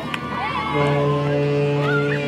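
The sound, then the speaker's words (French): A ship's foghorn sounds in port as a vessel leaves the quay, a deep, steady horn tone that begins after some brief voices and holds loudly to the end. “Tu peux faire la corne de brume? Je te fais la corne de brume. Oui, monsieur. On fait la corne de brume.”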